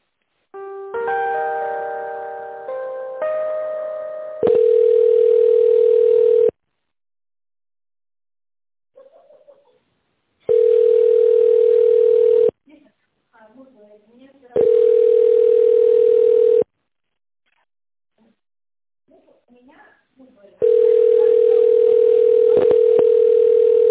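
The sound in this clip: Telephone line tones while a call is being transferred: a short stepped electronic melody, then four long, steady mid-pitched beeps separated by pauses, with faint small noises in some gaps.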